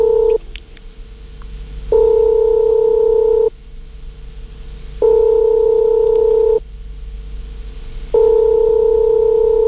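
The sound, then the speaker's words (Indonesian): A telephone ringing tone sounds while a call is placed: a steady, two-pitched tone repeats in long pulses of about a second and a half, separated by equally long silences, with three full rings after a short fragment at the start. “Kalau gitu kita coba hubungi dulu maknya.”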